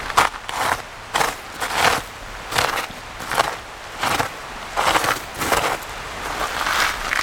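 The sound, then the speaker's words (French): Footsteps crunch on sandy volcanic debris of lava and ash in a steady walking rhythm, with many gritty scrunches spaced evenly. “Vous entendez là ce son particulier, très sablonneux.”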